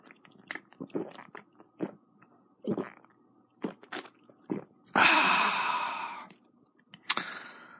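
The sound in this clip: A chilled 500 ml can of Suntory The Brew beer, 5% alcohol, is opened and drunk. Small clicks and handling noises come first, then a loud fizzing hiss lasting over a second, and a shorter hiss near the end.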